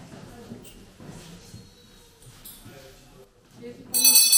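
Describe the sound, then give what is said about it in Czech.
A small bell rings to mark the end of a school lesson, a bright burst of ringing at the very end, after a stretch of soft voices and handling noise. “Takže zazvonil zvonec a vyučování je konec.”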